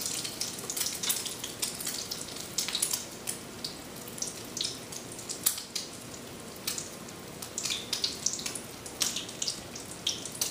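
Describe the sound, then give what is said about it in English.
Potato appetizers with egg fry in hot oil, giving a steady bright hiss with many sharp crackles and pops throughout, with no talking. “And these are not going to take very long to fry at all.”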